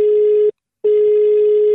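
Telephone ringing tone on an outgoing prank call: a loud, steady, single-pitched electronic buzz that cuts off briefly once, then resumes at the same pitch.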